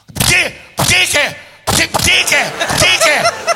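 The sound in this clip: A voice imitates sneezing with three sharp, loud sneeze bursts separated by short pauses, followed by a rapid run of further explosive vocal noises.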